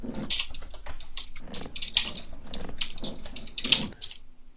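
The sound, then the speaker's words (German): Rapid typing on a computer keyboard, the dense, uneven clatter of many quick key clicks running continuously without pause, with no voices over it. “Ich tippe zu schnell.”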